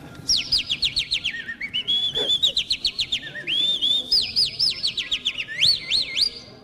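A person imitates a singing bird with the mouth, giving a long run of high, rapid whistled chirps and trills. They repeat in quick rhythmic bursts for several seconds over a faint low murmur.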